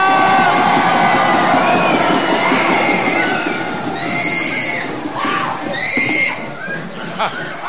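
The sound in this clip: A crowd of supporters cheers and shouts, a loud, dense and continuous wall of voices with shrill high calls rising out of it throughout.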